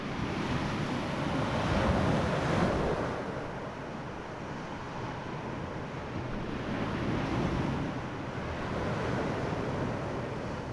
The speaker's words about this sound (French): sur une plage. Je marche dans l'eau